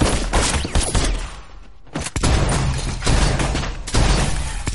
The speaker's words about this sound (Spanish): Mira al otro lado del pasillo y amartilla el fusil. Avanza por un corredor junto a un zócalo. Chao sube por una escalera y se para. Se encuentran. Gon abre fuego y Chao responde.